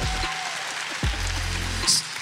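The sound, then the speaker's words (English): A live audience claps together in a steady, pattering round of applause. The sound is moderately loud and fairly even throughout. “Give it up. Clap. There we go.”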